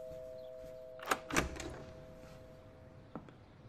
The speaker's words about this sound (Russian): Борис открывает дверь, и там Вика.